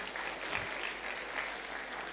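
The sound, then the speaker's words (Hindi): An audience applauds a performer at a live music event, with dense, even clapping that continues steadily throughout without breaks. “बहुत सुंदर, भाई जी के लिए तालियां हो जाए।”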